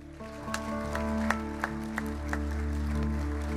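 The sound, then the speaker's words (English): Applause rises from a church audience as a group is celebrated after a child is carried and blessed. Sustained musical tones run underneath, and a few sharper claps stand out from the steady clapping. “Let's give them a big hand.”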